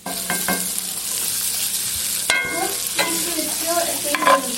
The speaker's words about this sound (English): We set the scallops aside, add some more oil to the pan, and sprinkle in Aleppo pepper and the cannellini beans.